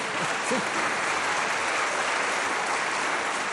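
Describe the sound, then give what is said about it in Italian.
Audience applause at a live public event in Cervia: dense, even clapping from a crowd continues at a steady level for the whole clip without a break. “credo che l'applauso che avete sentito sia soprattutto per il nostro ospite di oggi, che è Monio Vadia”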